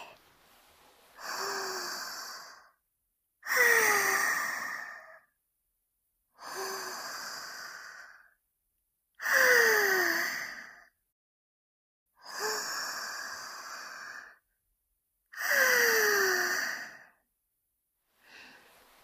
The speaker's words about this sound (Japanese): ミントを吸うのに集中できていますか？深呼吸は大事なので、ハデスがお手伝いします。